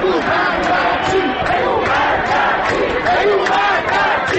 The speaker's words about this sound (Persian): شعار دوم از انتهای خیابان انقلاب که میرسد خیلی آرام و نامفهوم است، اما موجش جمعیت را میگیرد و ناگهان صدا بالاتر و بالاتر